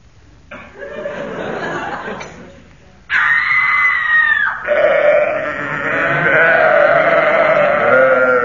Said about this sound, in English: That was a Vestal Virgin tripping over a sacrificial sheep